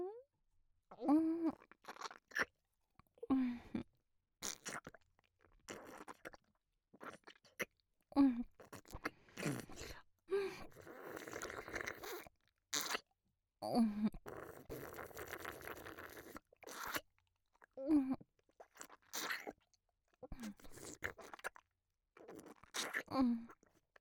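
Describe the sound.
Crunching and chewing of a smelly, salty food, with many short, crisp bites and munches coming in uneven bursts separated by brief pauses.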